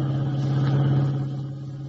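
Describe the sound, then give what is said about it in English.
A car drives along a road, its engine a steady low drone with a constant hum, holding level and then easing slightly softer toward the end, with no talk. “Kent and White dashed out, and as we join them now, they are driving the revived but still weak Jim Olsen back to the Daily Planet. Listen.”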